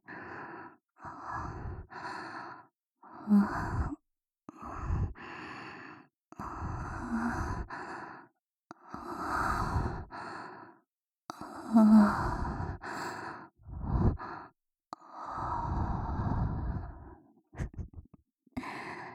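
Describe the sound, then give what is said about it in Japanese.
Close-miked ASMR breathing: a long run of soft, airy breaths and sighing exhales, each a separate whoosh with short pauses between, fairly even in loudness, with no talking. “吐息感じますか？”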